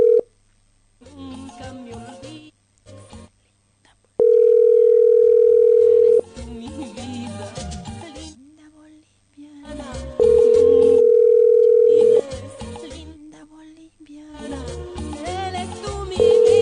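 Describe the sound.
A telephone rings unanswered, the ringback tone sounding as long, steady, even-pitched beeps. Two full beeps come about six seconds apart and a third starts at the very end, with voices filling the gaps between them.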